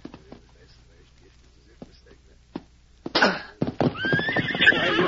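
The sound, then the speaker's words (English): A bronc, a bucking horse, whinnies loudly in a harsh, wavering neigh that lasts a couple of seconds, after a quieter stretch with faint voices. “I'll walk to the other side of this bronc. I'm going to mount him.”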